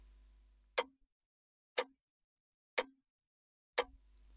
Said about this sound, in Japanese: チクタクチクタクってこれ時計の音？